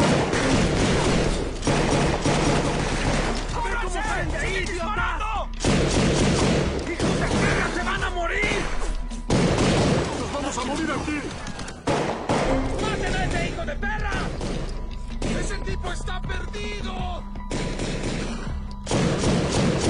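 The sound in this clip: Heavy gunfire in a dubbed action film scene, with shots fired from below. Dense, loud bursts of shooting and crashing impacts run almost nonstop, mixed with voices.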